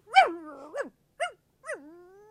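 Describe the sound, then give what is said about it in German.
A young lady's small lapdog barking jealously, four sharp, high-pitched yaps in quick succession, the last trailing off into a thin, fading whine. “Und ihr Hündchen Chip bellte mich an.”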